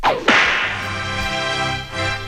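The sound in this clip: A single loud, sharp whip crack sound effect snaps out, followed by a lingering ringing tone that holds steady to the end.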